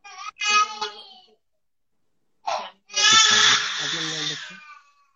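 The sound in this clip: A baby cries in a few bursts: a short wail, a pause, a brief whimper, then a longer, loud, strained cry that fades out.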